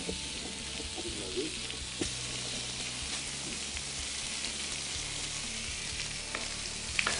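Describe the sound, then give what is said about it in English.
Bacon fries in a pan with a steady, crackling sizzle and occasional sharper pops throughout. “So I'm going to take your bacon, if you don't mind. Sounds good. Throw it in here.”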